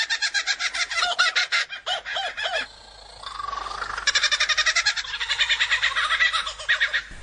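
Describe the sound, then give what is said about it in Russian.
Loud laughing call of a real kookaburra, rapid rhythmic bursts of harsh, cackling notes repeated in long runs, broken by a short pause midway before the chortling picks up again. “А это пение настоящей кукабарры.”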